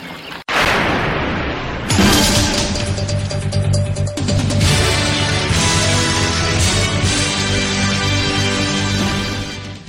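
Booming battle sound effects with gunfire for a medieval battle scene: a heavy blast opens, then dense, sustained clashing and rumbling with further loud impacts throughout.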